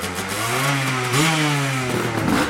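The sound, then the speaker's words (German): Old motorcycle engine revving as it accelerates away on a forest trial course: a loud, buzzy, steady drone whose pitch climbs partway through, with rattling mechanical clatter underneath. “Aber wer erst einmal sitzt, der sitzt, gibt Gas und verschwindet im nahen Wald.”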